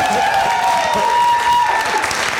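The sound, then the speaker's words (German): Audience applause at a live comedy show, a loud, continuous roar of clapping that holds steady throughout. “Wenn man dafür schon Applaus kriegt, das natürlich.”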